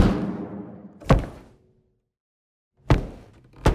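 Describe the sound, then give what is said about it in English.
Knuckle cracks, breaking glass and an airstrike blended into one processed composite. A noisy rumbling decay leads into a sharp hit, then a silent gap, then two more heavy percussive hits. “my wife's and my knuckles cracking. Oh, and glass breaking, and the sound of the airstrike in Jeremy's recording as well. So all of those sounds combined sound like this.”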